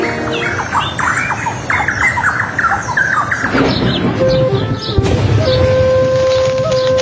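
Birds squawking and squealing as they fly: many overlapping high, sharp calls over a steady, noisy background, with a sustained tone entering near the end.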